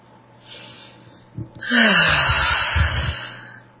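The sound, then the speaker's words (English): A deep breath drawn in during a guided relaxation exercise: one long, loud, breathy inhale lasting about two seconds, preceded by fainter breath noise and a brief catch. “close your eyes and take a deep, deep breath.”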